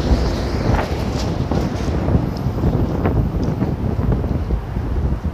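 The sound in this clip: Strong wind blowing during a dust storm, a loud, steady rumbling roar that buffets the microphone throughout, with no voices.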